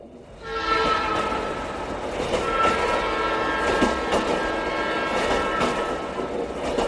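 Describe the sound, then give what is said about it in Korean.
A train rushing through the night toward Seoul, with a steady rolling rumble and a sustained horn tone held throughout. “새까만 밤 공기를 찢으며 서울로 돌진하는 기차 안에서 내 가슴은 설렘 반 두려움 반으로 울렁거렸다.”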